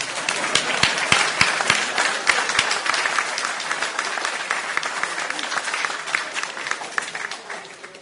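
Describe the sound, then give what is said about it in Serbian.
Audience applause: a dense, sustained patter of many hands clapping, holding steady and easing slightly toward the end. “Sad aplauz.”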